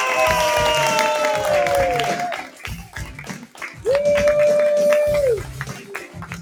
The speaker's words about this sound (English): Let's give a big round of applause for your host of the Inside Voice Podcast.